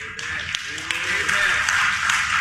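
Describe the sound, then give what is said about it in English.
Audience clapping during a sermon, a steady dense patter of hands that runs through the whole moment while a voice talks over it. “You may be sorry you clapped as we work our way through here.”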